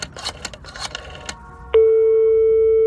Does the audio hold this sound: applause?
no